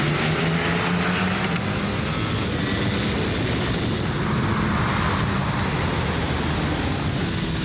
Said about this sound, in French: Franchement, de toutes les Ducati que j'ai essayées, c'est la plus puissante et la plus facile. Hop, point de corde. Et là, la ligne droite.